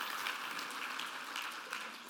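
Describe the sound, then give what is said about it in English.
An audience gives a faint, even round of applause for a senior receiving a gift, soft clapping that continues steadily throughout. “If you will give him a round of applause.”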